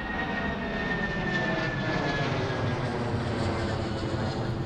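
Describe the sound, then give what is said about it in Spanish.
An airplane on a flight from Lima to Cusco drones with a steady, broad engine roar that holds evenly throughout, with a faint high whine on top. “Primero, voy a tomar un avión a Cusco.”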